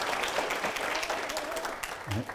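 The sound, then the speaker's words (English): Church audience applause, a dense wash of steady clapping, with a voice briefly rising above it. “Give her a hand and praise God for it.”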